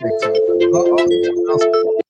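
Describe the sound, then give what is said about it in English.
Phone ringtone heard during a live online chat: a sustained, steady electronic tone pattern running for about two seconds, with people talking over it throughout. “Phone's ringing or something? Something's ringing.”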